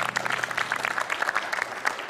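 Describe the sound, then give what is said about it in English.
Brief applause after a correct answer in a football trivia quiz. Quick, dense clapping from a group of people holds steady for about two seconds. “A round of applause.”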